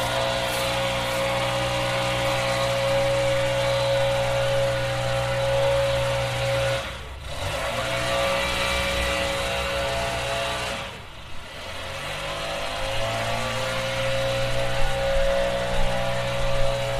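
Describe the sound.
A neighbor's leaf blower runs across the street with a steady droning whine at a constant pitch. The sound dips briefly twice but otherwise holds at a sustained level for the whole stretch, with no voices.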